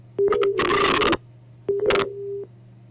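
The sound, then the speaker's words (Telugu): Telephone busy tone after a caller's line cut off: two long, steady beeps separated by a short gap, each overlaid with harsh bursts of line noise, above a constant low hum. “Hello, phone line cut అయినట్టుంది.”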